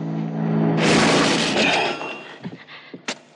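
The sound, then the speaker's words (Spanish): A photo frame is knocked over and falls: a loud, broad crashing rush, then a few small clattering hits as it settles. “Sin embargo, al caer golpea un marco de foto e inesperadamente consigue tirarlo.”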